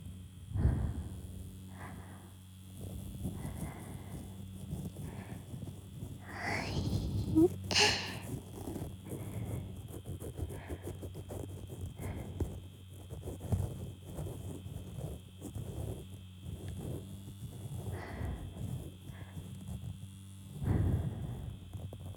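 Electric ear pick vibrating in the right ear, a faint, steady low buzzing hum with soft scraping and rustling textures passing over it.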